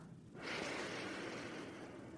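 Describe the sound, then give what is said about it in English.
A deep breath taken during a guided meditation, a soft, faint, airy rush that begins after a short quiet moment and holds steadily to the end. “We might start by taking three deep breaths together inhaling”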